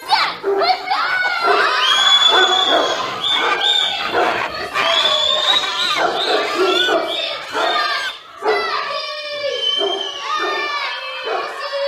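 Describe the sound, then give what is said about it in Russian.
A dog barking repeatedly as it is urged to bite, its barks mixed with loud shouting voices and crowd noise throughout. “Мой пес. А ну, куси. Куси.”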